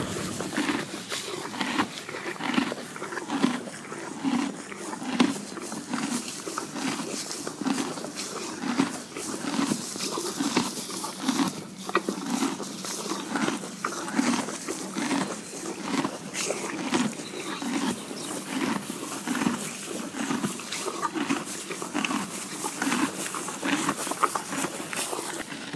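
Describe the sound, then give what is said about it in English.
A horse eating hay makes faint, rhythmic crunching and grinding as it chews. Many regular bites repeat steadily for the whole stretch, with no voices. “The sound you just heard is the sound of Lulu the horse eating hay.”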